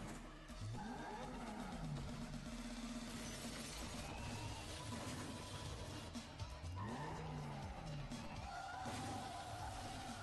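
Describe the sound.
Racing video game car driving a country track: a steady engine roar with revving that swoops down and back up in pitch, plus gritty tire and road noise throughout.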